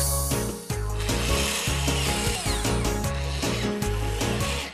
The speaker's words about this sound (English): Now I put the speakers into the hole and screw them into the front panel.